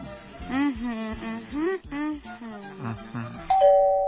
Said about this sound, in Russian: Ой, кто-то пришел. Ну вот, начинается. Ходят, звонят, мешают работать.